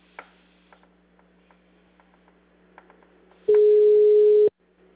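A telephone call-transfer tone sounds once as a steady mid-pitched beep about a second long. A few faint clicks and ticks on a quiet line come before it, and near-silence follows.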